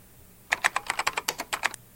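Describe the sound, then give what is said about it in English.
Typing on a computer keyboard: after a short quiet stretch, a quick, fairly even run of many crisp keystrokes lasts a little over a second, then stops, with no voices. “I'm typing it in right now, and that's $35.”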